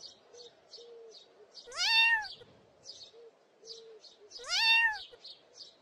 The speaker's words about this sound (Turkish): Hemen yanlarındaki uzun ağaca bakınca yavru bir kedinin dalın üzerinde miyavladığını gördüler.